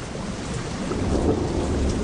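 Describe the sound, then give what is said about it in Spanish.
Rain falls on a rocky surface during a storm: a steady, dense hiss of drops runs throughout at an even loudness, with a low rumbling undertone. “la lluvia comenzó a caer en la rocosa superficie. Y siguió cayendo.”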